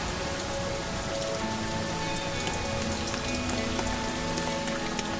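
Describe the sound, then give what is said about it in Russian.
Rain falling in a steady, even patter on surfaces, a continuous hiss of drops with scattered sharper ticks of individual raindrops and no voices. “Начинается дождь.”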